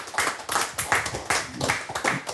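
Audience applause at a live performance, heard as steady, regular bursts of hand clapping that pulse at an even rhythm throughout.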